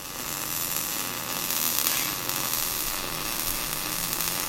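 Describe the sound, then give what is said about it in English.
Steady, sizzling electric buzz of a worker welding a flange onto a steel pipe on a fabrication shop floor, continuous and even in loudness throughout, with no talking. “Out on the shop floor at Merchants Fabrication, one of the company's 8 employees is welding a flange onto a steel pipe.”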